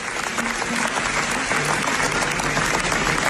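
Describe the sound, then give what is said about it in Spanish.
An audience gives a standing-style ovation after a documentary screening at the Venice Film Festival: dense, continuous applause at an even, moderately loud level, with no distinct voices. “Tras la proyección, el público ovacionó durante 25 minutos a Yuval Abraham y a Rachel Sorge, los directores, y por cierto fue un récord en el festival.”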